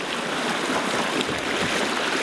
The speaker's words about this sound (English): Wind blowing and the noise of the water against the boat.